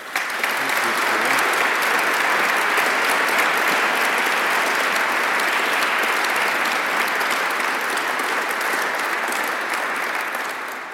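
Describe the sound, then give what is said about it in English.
An audience gives loud, steady, sustained applause to welcome a lecturer introduced for a talk on faith at the heart of nations. The clapping is dense and even throughout before easing slightly at the end. “So without further ado, I'll invite you to give him a very warm welcome for his lecture on faith at the heart of nations.”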